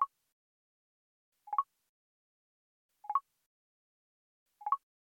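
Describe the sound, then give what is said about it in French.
VoiceOver screen reader double-tap sound: short, soft two-note blips, each stepping slightly up in pitch, repeated at an even pace with silence between them. The first is cut off at the start. “Passons à présent au son qui indique un double tap. Lorsque vous effectuez un double tap avec un doigt, on entend donc ceci.”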